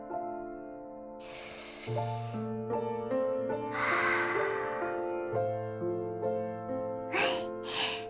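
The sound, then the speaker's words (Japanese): One big deep breath, a long airy inhale and a longer exhale, sounds over soft, steady background music, with a couple of shorter breaths near the end. “最後に大きく一回深呼吸。”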